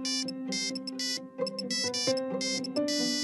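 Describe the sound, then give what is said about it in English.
A mobile phone ringtone plays a bright electronic melody of short, repeating beeping notes in a steady rhythm, loud and alone with no talking. “I think that's my phone. Where did I put it?”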